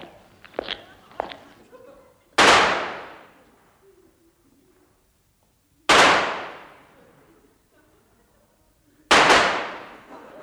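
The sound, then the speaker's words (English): Three loud pistol shots ring out in a comic duel, each a sharp crack with a fading tail, spaced a few seconds apart after some faint clicks. “Take this pistol! I warn you, I never miss! Nor I! One shot Moriarty, they call me. Now back to back, three paces, and then we fire, monsieur!”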